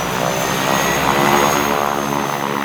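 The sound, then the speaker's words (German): An old turbine-engined airplane taxis toward takeoff, giving a loud, steady droning roar with a thin high whine running through it, unchanging for the whole stretch. “Die Maschine rollte zum Start. Das vergessene Putztuch flatterte im Wind der Turbinen, was mich an der Zuverlässigkeit dieses Oldtimers zweifeln ließ.”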